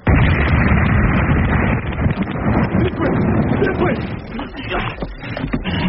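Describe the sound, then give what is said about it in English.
Mortar shells explode in a dense, continuous roar of rumbling blasts, loud throughout, with no clear gaps between the bursts. “The next couple of hours we moved from cave to cave, lugging all the gear, carrying Stevens and trying to dodge the mortars. They didn't know where the hell we were. They just fired them off at random.”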